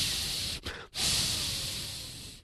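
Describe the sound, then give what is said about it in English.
A man breathes heavily, a loud, harsh, rushing sound that runs almost without a break and pauses briefly twice near the start. “He's known for breathing like”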